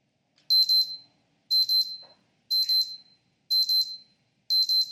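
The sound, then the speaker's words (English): A wristwatch alarm beeps in five high-pitched bursts, one per second. Each burst is made of quick short pulses. The beeps are fairly faint, with nothing else around them. “The wristwatch, yes, it's not very popular anymore these days.”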